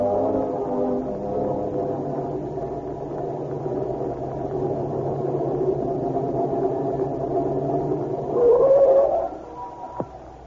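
A car drives at night without its lights, giving a steady low engine drone. The rumble holds at an even level, swells briefly near the end, then ends with a sharp click.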